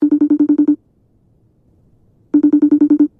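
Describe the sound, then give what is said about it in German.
Telephone ringing on an outgoing call to Innsbruck: two bursts of rapid, evenly spaced electronic ring pulses, each about eight beats long and fairly loud, separated by a pause of near silence. “Wir springen 1,5 Stunden zurück und tun so, als würden wir jetzt gerade anrufen.”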